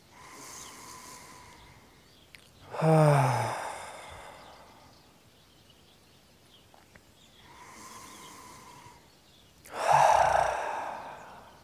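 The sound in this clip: Deep, slow breathing during a guided meditation, in two full cycles. Each is a soft, drawn-out inhale followed by a louder, sighing exhale, with quiet pauses between and no talking.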